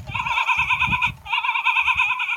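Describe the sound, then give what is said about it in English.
Sheep bleating in two long, wavering, nasal bleats, separated by a brief gap, over low, uneven rumbling underneath. “Okay the sheep goes.”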